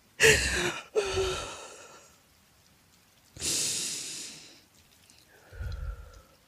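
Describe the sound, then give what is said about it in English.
A person takes a deep breath: a sharp two-part inhale, a pause, then a long sighing exhale and a softer breath after. The breathing is fairly quiet, with no speech. “Take a deep breath.”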